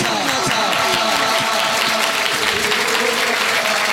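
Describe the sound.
Rhythmic clapping from an audience keeping time with a chanted Shia devotional song praising Ali, dense and steady beneath singing voices.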